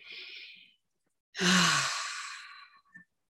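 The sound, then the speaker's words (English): A deep breath taken while getting centered: a soft inhale, a short pause, then a longer, louder sighing exhale, heard alone without talk. “I want you to take in a deep breath in with me.”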